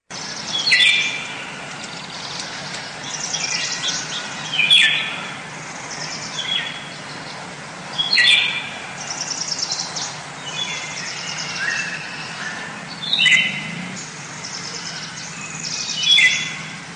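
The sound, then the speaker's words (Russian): Eurasian golden oriole song: bright, whistled phrases repeated at fairly regular intervals of a few seconds, standing clear above a faint, steady background. “Из всех певчих птиц, лесных музыкантов, самая скрытная и красивая — золотисто-желтая иволга.”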